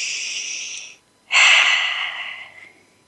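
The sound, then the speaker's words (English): A deep breath taken during a guided breathing exercise: a soft airy breath of about a second, a short silence, then a louder, longer rushing breath that fades away, with no talk. “Take one more breath.”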